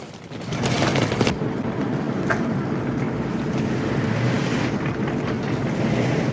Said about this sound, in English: The yellow station wagon, with brown wooden effect side panels, bucks over the uneven roads and comes to a halt.